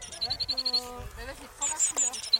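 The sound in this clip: European bee-eater calls: a quick series of high, bright chirping notes, a short pause, then a few more high trilling calls, heard alongside a voice talking.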